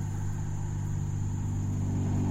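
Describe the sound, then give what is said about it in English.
Cars driving past outside make a steady low engine rumble that continues throughout, with a thin high whine held above it and no talk. “We're literally outside this episode, and yeah, cars are driving past again.”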